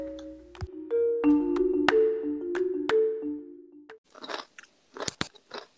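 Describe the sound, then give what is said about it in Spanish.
Crunchy Doritos corn chips being chewed, many quick crisp crunches in the last two seconds, following a few sustained tones and clicks at the start. “Comiendo Doritos.”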